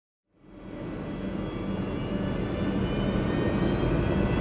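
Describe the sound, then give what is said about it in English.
Jet aircraft engine roar from a small-diameter Pratt & Whitney JT8D: a dense, loud, steady rumbling roar that begins abruptly and holds for about four seconds, with a faint whine on top and no voices. “That's the sound of a very particular sort of engine. In the very early days, they were using Pratt & Whitney JT8Ds, if memory serves me correct, small diameter jet engines that would fit”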